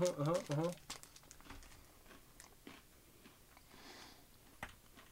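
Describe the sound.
A white chocolate Japanese Kit Kat is eaten: quiet wrapper crinkles and crunchy bites come as scattered sharp clicks, after a brief hummed voice at the start.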